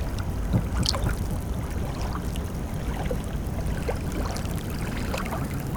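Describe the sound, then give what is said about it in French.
Calm ocean water at a beach: a soft, steady wash of gentle surf with faint scattered splashes, low and even throughout, with no voices. “Écoutez-le. L'océan aussi peut être paisible.”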